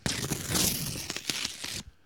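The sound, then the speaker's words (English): Paper tearing and crinkling as an envelope is opened, a dense, continuous rustle lasting just under two seconds before stopping abruptly into silence. “And here is the envelope for this week.”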